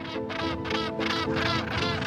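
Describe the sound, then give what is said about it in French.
Northern gannets calling at a seabird cliff colony in breeding season, a dense, continuous din of harsh, overlapping calls that stays loud and steady throughout. “Les fous de Bassan sont les premiers à revenir en mars, pour la saison des amours.”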